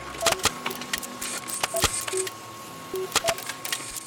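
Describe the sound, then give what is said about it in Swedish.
An electronic printer prints fact sheets about cheese: a run of short bright beeps mixed with sharp mechanical clicks and ticks comes at an irregular pace over a thin, steady tone. “Jag tänkte skriva ut lite fakta till er om kvällens faktatema, som är om ost. Här kommer de.”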